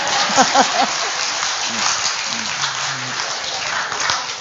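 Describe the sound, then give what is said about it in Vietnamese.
Listeners at a Buddhist teaching session applaud with a steady wash of clapping. Voices are heard briefly near the start. “Hay quá trời, ông vỗ tay cái chứ.”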